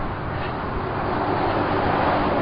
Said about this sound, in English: Bunch of traffic, they come in spurts.